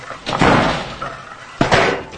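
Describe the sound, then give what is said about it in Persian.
A door slams shut hard as someone goes into her room: loud, broad bangs with sharp onsets, a couple of heavy impacts close together, with no voices. “درو چرا اینقدر محکم میبندی؟”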